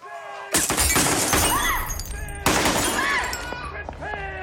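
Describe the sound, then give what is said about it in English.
Gunshots in a film scene: two loud blasts about two seconds apart, each followed by crashing, shattering noise and a dense, noisy tail. “That's the shot that hit Graciela.”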